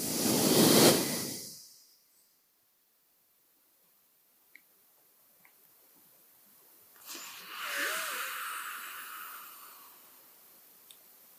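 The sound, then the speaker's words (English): Nasal breathing during an alternate-nostril exercise: a short, loud, airy breath at the start, then a long quiet gap, then a longer, softer exhale through the right nostril that slowly fades. “First we breathe in, then we breathe out the right nostril.”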